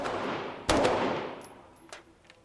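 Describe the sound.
Gunfire from a firearm as magazines are shot off during an outing: a few sharp, loud cracks, each trailing into a long rumbling decay, with the first blast already fading as the sound begins.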